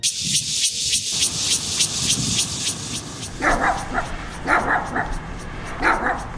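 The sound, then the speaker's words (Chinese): A dog barks and yips repeatedly in the middle of the night. The sharp barks come in quick bursts, and a person's voice is heard with them. “三更半夜在那边乱叫，我是都不用睡啊，活该被打，活该被打。 哎呦，你这是要把狗啊打死哦？”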